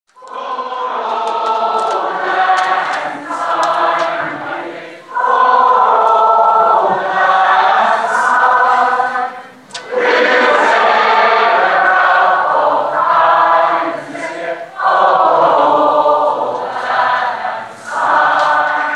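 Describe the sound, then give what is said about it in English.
Members of the European Parliament stand holding hands and sing Auld Lang Syne after voting to ratify the Brexit withdrawal agreement. The loud massed chorus carries sustained, wavering phrases with brief breaks between lines. “What you just heard were members of the European Parliament standing up, holding hands, and singing Auld Lang Syne, a traditional British New Year's Eve song, after voting overwhelmingly to ratify the Brexit withdrawal agreement”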